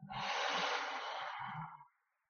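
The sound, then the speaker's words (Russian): A long, steady exhale during a guided breathing meditation: a soft, airy rush of breath lasting about two seconds, then fading away. No talking over it. “И мы выдыхаем.”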